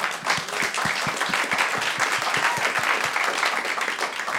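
Applause from an audience after a stand-up comedy plug: a steady roar of many hands clapping, with sharp individual claps standing out in a quick rhythm, moderately loud and without talk.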